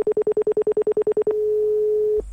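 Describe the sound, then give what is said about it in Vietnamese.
Telephone tones follow the dialing of a mobile number: a rapid run of short, even beeps at one mid pitch, then a steady tone at the same pitch held for about a second before a click ends it, with no voices. “Cháu bấm gọi rồi đây ạ.”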